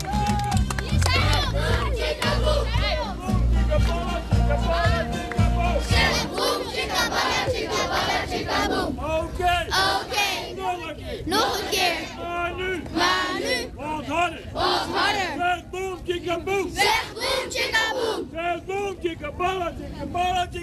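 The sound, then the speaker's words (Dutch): Children cheering and shouting together as a loud, sustained crowd roar, full of overlapping young voices that swell and fall without a break. “Heel goed, applaus voor jullie zelf,”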